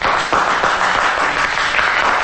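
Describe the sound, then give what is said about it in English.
Applause breaks out after a recited verse speech, forming a dense, steady wash of many hands clapping that holds at an even, fairly loud level for the whole stretch. “Carter leads the applause.”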